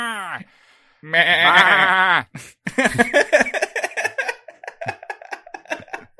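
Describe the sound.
A person's voice imitates a goat man bleating, giving one long, quavering, nasal bleat. Choppy, rapid talk follows it.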